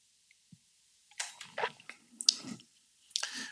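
Quiet sipping of rum from a glass: a few faint, wet slurps and small clicks in short bursts, with no talk over them.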